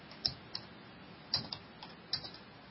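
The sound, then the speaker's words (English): Sparse, quiet keystrokes on a computer keyboard, a few separate clicks and small clusters of taps with pauses between them, with no talk. “Let me type this in here real quick.”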